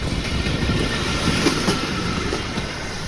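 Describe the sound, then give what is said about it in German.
Rolling clatter of red pedal-powered rail trolleys on railway tracks, rented by tourists and pedalled along an old line beside a path for cyclists and walkers; a steady, continuous rumble with light clacking, no voices. “Auf einem Abschnitt fahren rote Draisinen, Touristen haben sich eine geliehen, treten in die Pedale und winken Radlern und Wanderern, die auf dem Weg neben den Schienen unterwegs sind.”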